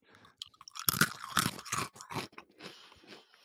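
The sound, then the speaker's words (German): Chewing and crunching of pretzels with beer: crisp bites and moist smacking in a busy run of many irregular crunches, soft overall, with no talk. “Ich habe nämlich alle mit Bier und Brezeln versorgt, weil, genau, das schön schmatzen und knacksen.”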